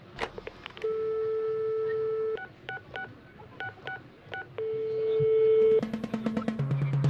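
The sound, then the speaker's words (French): A short radio jingle built from telephone sounds: keypad beeps, long steady tones and busy-signal pips, ending in a rapid run of dialing tones. “On va peut-être mettre un petit jingle, on va mettre un petit jingle là, le temps que je rejoigne un autre invité”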